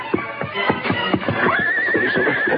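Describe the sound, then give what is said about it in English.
Galloping horse hooves approaching, a quick, rhythmic drumming of beats that grows a little louder, joined midway by a high, wavering whinny, with no voices. “Then there only a short time when he heard the fast beat of galloping hoofs approaching.”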